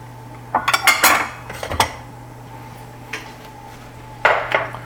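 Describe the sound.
Clinks and clatter of dishes and cutlery as a bowl is set out for spring rolls, coming in a few short bursts of knocks over a steady low hum, with no talk.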